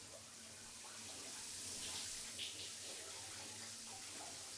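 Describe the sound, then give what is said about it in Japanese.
Warm water is poured over hair to wet it, making a faint, steady trickling hiss of running water that lasts the whole time. “まずは髪を軽く濡らしましょう。頭にかけますね。”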